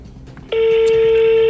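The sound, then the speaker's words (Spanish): A telephone tone as a call is placed: after a quiet, murmuring background, a single loud, steady electronic tone starts abruptly and holds for about a second before stopping. “Aquí en este momento estoy haciendo la llamada telefónica. Permítame un segundo, ojalá corramos con suerte. Aquí está, estoy llamando en ese instante.”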